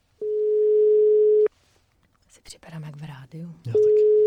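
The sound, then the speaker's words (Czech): Telephone ringback tone on a call to a prize winner: a long steady mid-pitched tone, then a short stretch of other sound, then the same tone again, loud and alone. “Voláme výherci zájezdu.”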